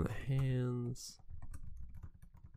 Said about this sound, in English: Sorry if you can hear that typing in the background.